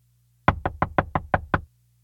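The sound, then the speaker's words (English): Knocking on a school bus door: seven quick, evenly spaced raps in a steady rhythm, loud and sharp, with a faint low hum before and after. “Suddenly, a girl ran to the bus and knocked on the door.”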